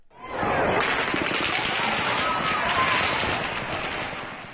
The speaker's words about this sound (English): began firing what sounded like hundreds of shots from what sounded like it could have been an automatic weapon. We have tape from the scene recorded by Russell Bleck